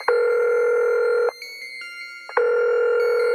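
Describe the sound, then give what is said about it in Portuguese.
Telephone line tone while a call is placed: a steady tone sounds, breaks off for about a second with fainter tones in the gap, then resumes. “Ligar pra ele aqui pra ver o que é que aconteceu”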